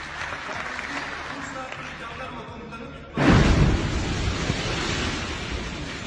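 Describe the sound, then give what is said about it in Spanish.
A bomb explodes near the Turkish Parliament in Istanbul before dawn: steady background noise, then a sudden loud, deep blast swelling into a sustained, rumbling roar. “Esa era la bomba que caía de madrugada en el Parlamento turco.”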